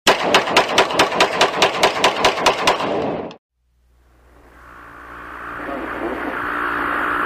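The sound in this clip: Rapid automatic gunfire from the Call of Duty video game: many evenly spaced, loud, sharp shots in one steady burst of about three seconds. It cuts off abruptly to silence, then a low rumbling noise slowly swells.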